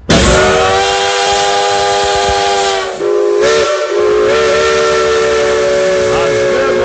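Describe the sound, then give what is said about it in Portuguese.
A steam locomotive whistle sounds a long, loud, chord-like blast of several steady tones with a hissy edge, briefly faltering near the middle before carrying on steadily to the end. “A vida pede passagem. A nossa locomotiva, a nossa Maria Fumaça.”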